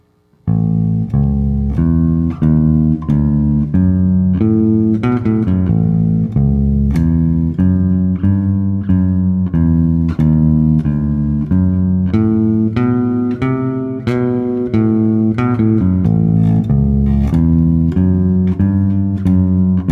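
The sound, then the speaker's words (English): A guitar solo is played through in full over twelve measures, opening on the open A third string, as a steady stream of plucked single notes and short phrases in a moderate rhythm at an even loudness, with no talking. “So let's start with the first guitar solo. That's what comes in after the intro. And what I'd like to do is play through the whole thing for you, all 12 measures.”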